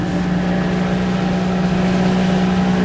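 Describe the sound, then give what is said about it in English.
Motorboat engine droning as the boat heads out to sea toward Hussey Sound, a steady low hum with a constant pitch and no breaks. “As we motor out towards Hussey Sound, Catherine Chipman”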